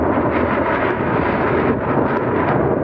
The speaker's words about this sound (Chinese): 没想到三台大推力发动机开加力时候的那个声音，比刚才歼二零地空通场的时候还要震撼人心。